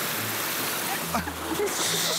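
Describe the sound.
Sea water rushes and splashes onto people wading at a beach. Continuous watery hiss swells into a brief, bright splash near the end, with voices present.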